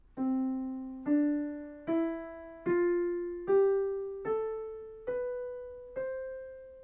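A musical scale in the Ionian mode, the major scale, rises step by step through eight clear, sustained tones. Each note starts with a firm attack and then fades, at an even pace, with no voices.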